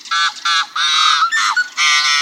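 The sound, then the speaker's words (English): A yellow-headed blackbird at Rice Lake State Park in Minnesota gives gruff, buzzy growls and short toots, about six harsh bursts with brief gaps. Two quick higher-pitched toots fall in the middle of the run. “In the Midwest, at Rice Lake State Park in Minnesota, a yellow-headed blackbird offers its gruff repertoire of growls and toots.”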